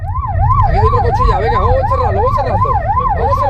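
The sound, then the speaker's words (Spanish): A police siren wails during an arrest after a night car chase through city streets in Seville, sweeping rapidly up and down in fast repeating cycles, loud and continuous over a low rumble. “Son sonidos de la detención de un individuo que ha protagonizado esta noche una espectacular persecución en las calles de Sevilla.”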